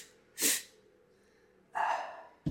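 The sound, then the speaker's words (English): A brief, sharp breath is drawn in, then after a pause comes a second quick, noisy inhalation. A short breathy burst follows at the very end, with no speech. “You inhale for like just briefly inhale. And then after you've inhaled, do another quick inhalation”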